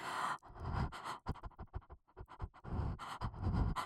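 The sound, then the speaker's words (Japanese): Heavy, rapid panting from one person, many ragged breaths in quick succession broken by brief pauses, loud and with no talk. “呼吸が荒くなってくる。”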